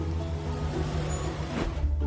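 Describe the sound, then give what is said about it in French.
An overloaded moving truck carrying old furniture produces a steady, low engine rumble and drone, fairly faint and unchanging across the short stretch, with no voices. “Un camion surchargé qui transporte de vieux meubles d'une valeur inestimable et des rêves très ordinaires.”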